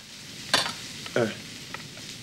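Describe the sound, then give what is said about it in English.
Stirring scrapes from a whisk held still while the bowl is turned around it during cooking: a few short, dry strokes with two stronger bursts and a fainter one later, with no voices. “Odo takes the bowl and whisk from Sisko and, holding the whisk still, moves the bowl around it.”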